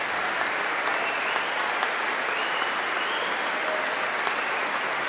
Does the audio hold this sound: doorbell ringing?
no